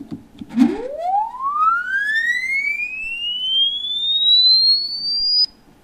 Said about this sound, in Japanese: では、今までの 110Hz から 5000Hz 間の音を連続的に変化させながら再生してみたいと思います。